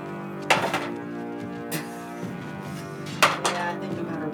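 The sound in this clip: Dice clatter across a table during a tabletop role-playing game roll made with disadvantage, with two main bursts of sharp clicks and rattles, the second roll louder, under an ongoing hum of voices.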